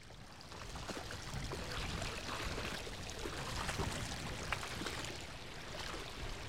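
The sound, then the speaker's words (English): Wellington boots are washed in a ford of Pudsey Beck, with soft, continuous splashing and trickling water at a low, even level throughout. “I'm just taking the opportunity to give my Wellington boots a bit of a wash down. I've come to a ford back across Pudsey Beck”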